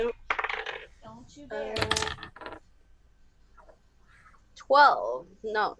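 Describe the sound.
Dice are rolled for initiative in a tabletop role-playing game, a short rattling clatter heard between stretches of people talking.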